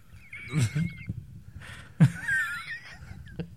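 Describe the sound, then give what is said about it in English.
A voice imitates Miss Piggy pig noises with breathy squeals and snorts in two short bursts, high and wavering, with quieter sounds between them. “Make Miss Piggy noises.”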